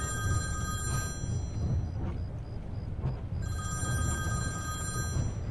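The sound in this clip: A telephone rings in two long bursts of bright, trilling bell tone, the first at the start and the second from about three and a half seconds, with a low steady hum beneath.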